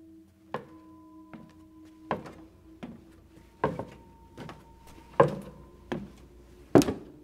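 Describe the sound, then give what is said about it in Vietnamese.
A walking cane taps on a wooden floor in nine dull, evenly spaced knocks at a slow, steady pace, each one short and hollow over a faint continuous drone. “đúng thật là tiếng lộc cộc, giống như là một người đang cầm ba tong gõ lên cái sàn gỗ.”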